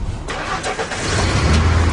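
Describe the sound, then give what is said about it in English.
A car engine starting on a frigid morning: a brief uneven churn of cranking, then the engine catches and settles into a steady, loud, low rumble. “4:45 in the morning. It's my job to start the cars.”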